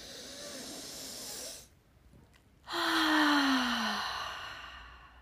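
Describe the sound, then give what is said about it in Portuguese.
A deep breath is drawn in through the nose as a soft, steady hiss. After a short pause comes a louder exhale out through the mouth, carrying a voiced sigh that falls in pitch. “Inspira pelo nariz, expira pela boca, fazendo esse barulho, esse som, junto comigo”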